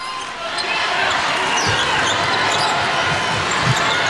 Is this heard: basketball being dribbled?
yes